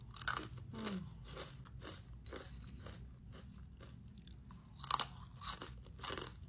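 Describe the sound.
Crunching on basreng, a spicy fried fishball snack: many faint, crisp bites and chews in an uneven rhythm, with one louder crunch near the end.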